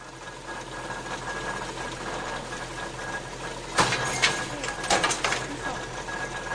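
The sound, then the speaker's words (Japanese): A wire straightening machine runs in a workshop, straightening coiled wire stock to make wire frames. It gives a steady mechanical whir with a few sharper clatters near the end, and a voice talks over it. “この機械は直線機って、まあ、言ってるんですけども、直線で巻いてある材料をここでまっすぐにする機械”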